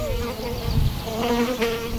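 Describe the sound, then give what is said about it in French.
Buzzing of a large fly with an elongated body circling around: a continuous droning hum with a wavering pitch that rises and falls as it moves, steady and fairly loud. “Qu'est-ce qui nous tourne autour comme ça? Oh non, c'est un temps. On dirait une grande mouche avec un corps allongé.”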